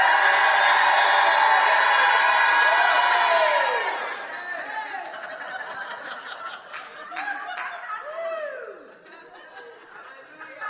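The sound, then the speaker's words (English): A church audience shouts during a sermon, first as a loud, sustained roar of many voices, then as looser rising and falling shouts and calls that carry on through the rest of the stretch. “I'm going to stop. I hear a shout in this place.”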